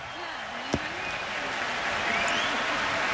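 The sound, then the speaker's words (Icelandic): Cheering and applause from a concert audience at an open-air stage in Berlin on a hot summer evening: dense, even clapping that holds steady throughout and swells slightly toward the end. “Þaðan fór engin svikin eða svektur heim ef marka má fagnaðalætin.”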